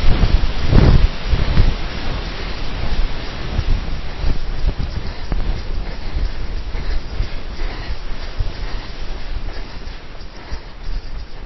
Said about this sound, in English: So windy!